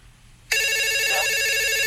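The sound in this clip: A telephone rings with an incoming call to a radio show. The loud electronic ring starts abruptly and holds steady with a rapid warbling pulse to the end, with no voices over it.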